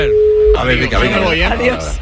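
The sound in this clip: A mobile call going to voicemail: a single steady mid-pitched tone lasts about half a second, then a voice starts speaking.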